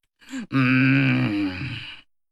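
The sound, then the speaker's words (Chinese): A voice imitates an angry ox panting heavily: a short breathy sound, then one long, strained, loud groan that trails off. “纣王气的呀，像牛喘气差不多少。”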